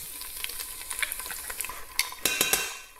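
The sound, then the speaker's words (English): Pesto heating with oil in a pan sizzles softly and steadily, broken by a few sharp scrapes and clinks of a utensil stirring it. No one talks. “Just roughly heat up the pesto. Maybe bring up some of the flavor. Maybe a bit more oil actually.”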